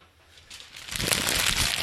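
A page ripped out of a notebook: a quiet start, then a rough, papery tearing noise that swells in and holds loud to the end.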